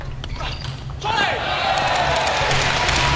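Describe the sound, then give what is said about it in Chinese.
Moregard serves in a table tennis match. A few sharp clicks of the ball striking the bat and the table are followed by a swell of crowd noise. “莫雷加德发球，”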